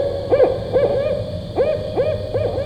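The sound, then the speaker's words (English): Barred owl hooting: a series of about six hoots, each dipping in pitch, in an uneven rhythm of short groups. The calls are clear and moderately loud over a low background hiss. “the barred owl sounds like this,”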